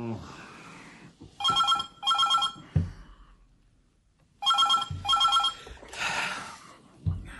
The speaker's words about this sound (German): Und da klingelte das Phon. Es klingelte und klingelte, bis ich aus dem grauen Meer meiner Erschöpfung auftauchte und abhob.